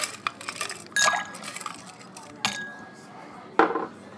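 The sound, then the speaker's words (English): Ice dropped into a glass while mixing a dry vermouth cocktail: three separate sharp clinks, each with a brief ringing tone, spaced apart over a low rustling background. “Here, we're gonna add ice.”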